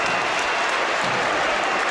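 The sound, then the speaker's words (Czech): Football stadium crowd at Malšovická aréna (Finep aréna) applauding as a player is shown a red card, a loud, continuous wash of clapping and crowd noise without distinct individual voices. “Ve Finep aréně, jak se nově tedy jmenuje tento fotbalový stánek, se tleskalo, protože Jevhení Skiba nakonec vidí červenou kartu”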